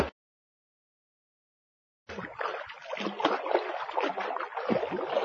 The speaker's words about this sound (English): The hippo plays in the swimming pool.